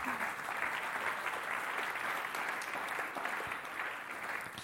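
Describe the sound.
Applause from a church audience welcoming a speaker forward for a morning talk: a dense, even patter of many hands clapping, steady in level throughout with no voices.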